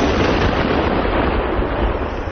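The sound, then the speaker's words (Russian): Mines and shells found in a conflict zone are detonated at a special range, heard as a loud, steady, dense roar of rumbling noise lasting the whole stretch without a break. “Найденные мины и снаряды вывозят на специальные полигоны и подрывают.”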